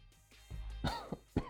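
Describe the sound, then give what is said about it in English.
A person coughing and clearing their throat, a few short, rough bursts of growing strength, fairly quiet and with no talk. “While I cough.”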